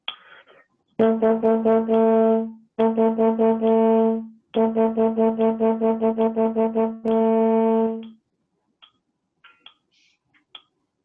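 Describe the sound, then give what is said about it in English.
A brass tonguing exercise at 72 BPM: several runs of quick, evenly tongued repeated notes on a steady low pitch, ending with a long held tone and a few faint scattered sounds. “if we're doing a tonguing exercise at 72 BPM, again, something I might play would sound like this.”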